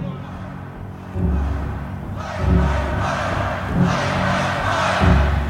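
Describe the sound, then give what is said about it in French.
A concert crowd in Miami shouting in protest, demanding the Doors play instead of the singer talking; loud roaring voices surge in several waves over a dense, continuous crowd noise. “Contestation dans le public. Ils ne veulent pas qu'il parle. Ils veulent que ça joue, qu'il fasse le show. Ils veulent les Doors et la rockstar.”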